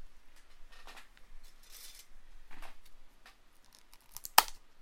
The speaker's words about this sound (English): If you heard that little thing, it means I'm unwrapping it.